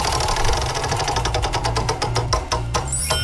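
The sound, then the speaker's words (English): A game show prize wheel spins on a morning show, its pointer clattering in a fast, even run of loud clicks that gradually space out as the wheel slows. “Are you going to spin the wheel for us? Let's spin the wheel.”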